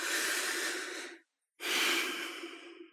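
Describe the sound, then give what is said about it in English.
A long, deep breath taken during a guided meditation: a slow, airy inhale, a brief silent pause, then an equally long, steady exhale, with no talking. “And that's why I repeat the same mantras, like take a long, deep breath,”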